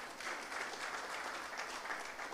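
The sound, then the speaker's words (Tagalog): An audience claps their hands during a church service, producing dense, continuous applause at an even level throughout. “Palakpakan po natin si Lord, come on.”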